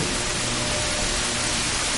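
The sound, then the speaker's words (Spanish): Rain pours onto the wooden planks of a platform in Inchon during a storm, a dense, even hiss of countless drops with no distinct single hits, loud and unbroken throughout. “Rompe a llover en Inchon. Las gotas de lluvia caen sobre las tablas de la plataforma.”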